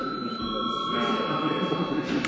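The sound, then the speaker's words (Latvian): An electric bell rings in a parliament chamber to call members to a vote, giving a steady, even, high ringing tone that holds for about two seconds over a low murmur of the room. “Bet tagad lūdzu zvanu.”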